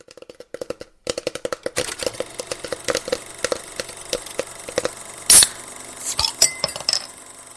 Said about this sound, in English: crack, and there goes the beer lid. Oh, fresh, refreshing beer sound.